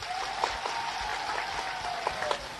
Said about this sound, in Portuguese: Quero pedir uma grande salva de palmas para Salvador.